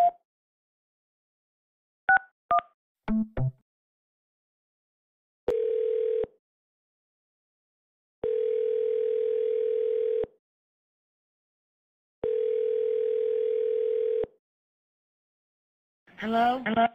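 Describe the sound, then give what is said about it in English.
Telephone call tones: a few short dialing beeps, then three steady mid-pitched tones separated by silence. The last two each last about two seconds, and a voice begins at the very end. “Please leave your voicemail after the tone.”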